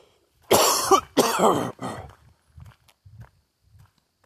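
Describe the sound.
A person with a tickle in the throat gives two loud, rough coughs, then a shorter throat-clearing rasp. After these come several faint, soft low taps and small rustles.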